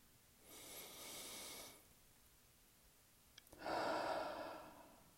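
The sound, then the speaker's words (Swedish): A deep breath is drawn in through the nose to close a guided relaxation exercise: a soft, sustained inhale, a pause, then a louder, breathy exhale through the mouth. “ta nu ett djupt andetag genom näsan och släpp ut luften genom munnen högt och ljudligt.”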